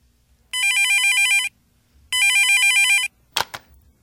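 Phone ringing with a call from a boyfriend: two electronic ring bursts, each about a second long with a short pause between, followed by a brief clatter.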